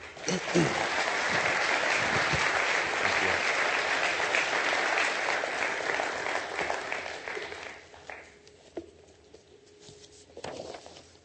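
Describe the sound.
Audience applause welcoming a speaker to the front at an evening public talk: dense, steady clapping that holds for about eight seconds, then thins out and fades, leaving a few scattered claps and quieter shuffling.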